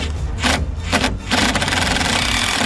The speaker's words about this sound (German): Wir haben jetzt die letzten Schrauben. Du hast den Akkuschrauber parat?